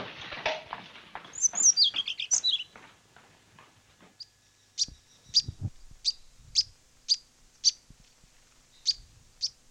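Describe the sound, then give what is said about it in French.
A bearded reedling calling, a series of many short, high, metallic pinging notes spaced about half a second apart, preceded by a rapid burst of faint higher chirps. “196, mésange à moustache.”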